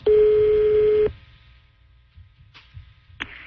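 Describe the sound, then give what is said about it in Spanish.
Phone line tone as a call is placed to a seafood business: one loud, steady ring tone of about a second, then a quiet line with a few faint clicks. “Estoy marcando.”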